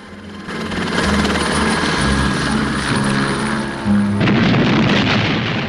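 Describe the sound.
A helicopter taking off after its pilot hands over a jewelry box, its loud rotor and engine roar holding steady throughout, with a brief dip and a low rumbling surge near the end.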